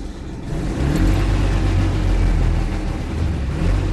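A Messerschmitt microcar built for racing starts up, its engine catching after a quiet first half second, then running at a loud, steady, buzzy drone with a low rumble.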